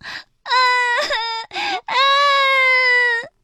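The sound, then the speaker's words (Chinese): Loud crying from children, heard as high, sustained wails in a few separate bursts, two of them long and drawn out, with no other talk. “小木偶菲菲大哭了起来。怎么会这样呢？甜甜也难过的大哭了起来。”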